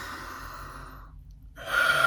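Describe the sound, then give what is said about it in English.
A deep inhaling breath during a guided mindfulness breathing exercise: a soft, airy breath, then a brief silence, then a stronger, louder drawn-in breath. “So here we go. We're going to inhale.”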